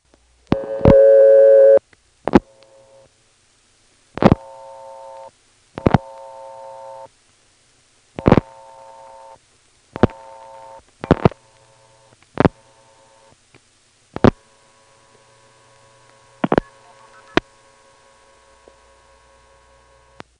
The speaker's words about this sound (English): That's going to stack up two callback circuits, then go into the toll trunk and dial something that goes off hook, triggering the identifier to spill out that strange MF sequence again.